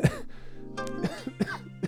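A man clears his throat and coughs in a few harsh, rasping bursts separated by short pauses, with no talk in between.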